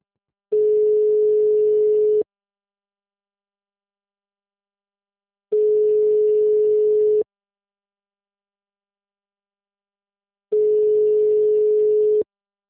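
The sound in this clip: A telephone tone sounds after a call fails to connect: three long, steady beeps at a single pitch, each separated by a long silence.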